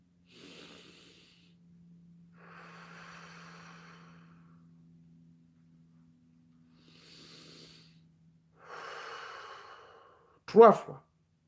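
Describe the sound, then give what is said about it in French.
Slow, deliberate breathing: a few soft, airy breaths follow one another, quiet and alone, before a single sharp knock at the end. “Vous respirez 3 fois.”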